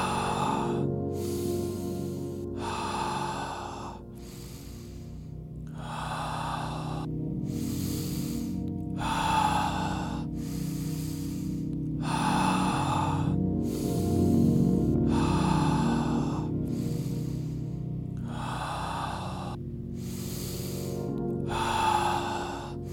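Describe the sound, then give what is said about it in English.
Slow, deep breathing in and out guides a meditation. Many soft, evenly spaced breaths repeat in a calm rhythm over a sustained low tonal drone. “Continue following my breath.”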